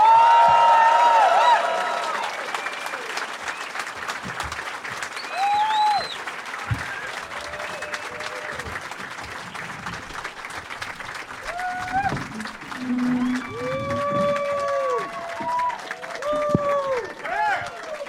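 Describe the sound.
An audience gives a studio show's guests a warm welcome with a burst of applause that fades into scattered clapping, cheering and crowd murmur, with voices talking over it.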